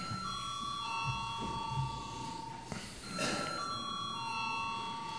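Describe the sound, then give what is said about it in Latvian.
A parliament's voting bell rings before a vote on a bill. It holds a steady, high electric ringing tone through the whole clip, with faint background murmur underneath. “Paldies, lūdzu zvanu.”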